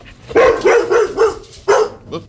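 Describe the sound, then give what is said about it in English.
A dog barking territorially from its bed on a porch: a quick run of loud, sharp barks, a short pause, then two more, the last one softer. “He went ballistic. He just started barking at you.”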